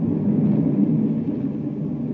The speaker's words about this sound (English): Meanwhile, far out in space, avoiding the regular space lanes, a space cruiser races toward Saturn.